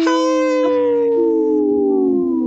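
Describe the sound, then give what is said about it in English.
People imitate a wolf howl together: one long, loud, sustained tonal howl whose pitch slides slowly downward over a couple of seconds, with no talking. “Hey, I practice that howl.”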